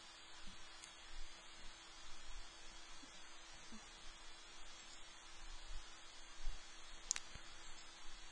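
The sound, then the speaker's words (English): Faint computer mouse clicks while working on a blog auction listing, a few sharp, isolated ticks spread out over a steady low mains hum, with no talk. “Let's try to click here, it takes too much time.”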